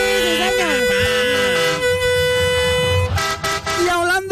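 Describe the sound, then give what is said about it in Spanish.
Truck air horn honking on a street while the vehicle is loaded at an aid collection point: a loud, sustained, tonal blast that breaks off near the end, followed by shorter honks. “Vamos eche a pito ese camión, eche pito ese camión.”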